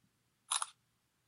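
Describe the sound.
A camera shutter fires once to take a photo, a short double-edged click in otherwise near silence.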